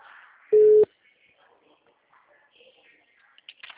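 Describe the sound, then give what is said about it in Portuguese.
A single loud, steady beep of a telephone busy tone after a dropped call, followed by a few seconds of near silence with faint, low sounds. “a ligação caiu porque eu estava aqui na linha com o senhor”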